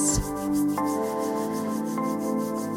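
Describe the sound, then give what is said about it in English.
Palms are rubbed together vigorously during a self-reiki exercise, making a fast, even run of many brisk swishing strokes over soft, sustained musical tones. “Rub the palms together quite vigorously, generating some heat”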